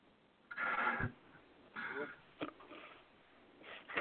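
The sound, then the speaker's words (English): A person snorts: a few short, breathy nasal bursts separated by quiet gaps, some longer and some very brief. “You know what they say about people who snort?”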